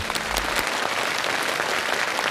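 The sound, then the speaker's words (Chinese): Applause from the audience at a software presentation, a brief burst of dense, even clapping holding steady for about two seconds. “哎呀，掌声鼓励一下，还真不错。”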